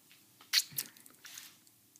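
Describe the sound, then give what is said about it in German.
A bite into a mango-flavoured Nimm 2 filled candy: one sharp crack, then a few softer, squishy chewing sounds, faint and with no voices. “Und dann einmal aufbeißen und die Füllung essen.”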